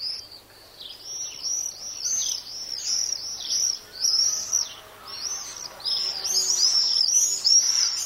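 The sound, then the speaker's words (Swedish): Common swifts calling in summer: many shrill, high-pitched screeching calls in quick overlapping bursts, repeated throughout and growing denser near the end, with no voices. “Det är sommar, va? Ja, det är tornseglarna eller tornsvalerna.”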